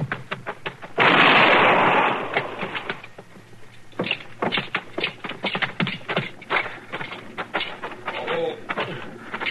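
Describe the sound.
A gunshot fired at a fleeing man bursts out as one loud, broad blast lasting about a second, then fades into scuffling sounds and brief voices.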